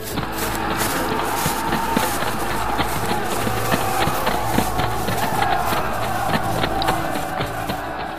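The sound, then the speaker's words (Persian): Sound effect of a crowd of hungry, thirsty soldiers stampeding toward heaps of bread and water: a dense, continuous rumble of many running feet mixed with crowd noise. “پس کوهی از نان و آب در مقابل لشکریان تشنه و گرسنه پدیدار شد و آنها بیدرنگ به سمت طعام حمله ور شدند، به طوری که عده‌ای در زیر دست و پا له”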